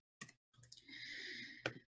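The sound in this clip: Computer mouse clicks while importing an Excel file into Power BI: a few faint, sharp clicks spaced over a couple of seconds, with a soft sustained noise between them and no talking.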